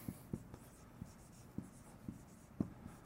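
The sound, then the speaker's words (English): A pen writes the word relationship on a page, giving many faint, quick scratching strokes in an uneven rhythm, with a few slightly louder taps among them. “Just simply looking at what's on the page. So I'm gonna write relationship.”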